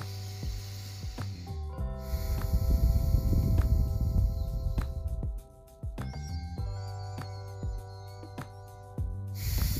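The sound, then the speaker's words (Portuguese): A slow, deep inhale through the nose during a guided breathing exercise, heard as a soft rushing breath lasting a few seconds beneath sustained, gentle tonal music. “Agora inspirando pelo nariz e soltando o ar pelo nariz também. Então, inspira.”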